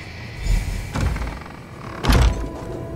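In a video game, a lock is picked and an unwarded door to a courtyard swings open, heard as a few dull mechanical thumps and rattles, with the last one the heaviest, over steady low background noise.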